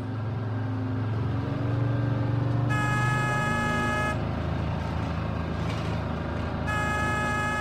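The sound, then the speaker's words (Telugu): A bus arriving to take children to school honks its horn twice: a long blast followed by a second one that runs to the end, both over a steady low engine rumble. No one speaks. “Bus వచ్చేసింది”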